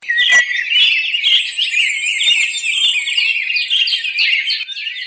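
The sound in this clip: A bird calling in rapid, high-pitched chirps and trills that run almost without pause for about five seconds. The calls are fairly loud and heard alone, with no voices.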